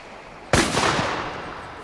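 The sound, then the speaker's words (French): A single gunshot from a rifle fired on the shore as a signal, heard from a boat at sea in 1838: one sharp, loud crack, then a long rumbling tail that slowly fades. “Le signal de terre. Voici un fusil. Voulez-vous y répondre vous-même ?”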